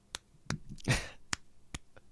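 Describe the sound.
A single hand clapping, fingers slapping against the palm, gives several quiet, sharp slaps spaced irregularly, with a brief breathy rush of noise between them.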